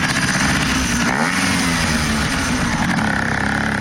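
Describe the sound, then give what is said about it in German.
A moped engine revs while mopeds are cleaned and readied for a moped rally, producing a continuous loud, buzzy drone that dips briefly near the middle before picking up again. “Ja, es tönt. Töffli, sie werden geputzt und auf Vordermann gebracht für die legendäre Töffli-Reli”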